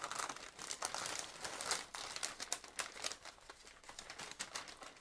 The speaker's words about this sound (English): That was awkward wrapping bottles.